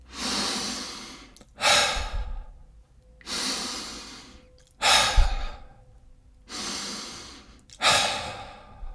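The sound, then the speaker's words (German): Deep connected breathing: air drawn in through the nose and let out through the open mouth with no pause between. The breaths come in about three steady in-and-out cycles, airy and fairly loud, each exhale a rushing sigh. “Atme tief durch die Nase ein und ohne Pause durch den offenen Mund wieder aus. Lass uns gemeinsam ein paar Atemzüge nehmen.”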